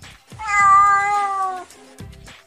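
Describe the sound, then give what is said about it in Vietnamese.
A kitten meows pitifully in one long, loud, plaintive cry that holds its pitch before dipping slightly at the end, standing alone without talk. “Mèo con bị xách đi, cảm thấy khó chịu nên kêu meo meo đáng thương.”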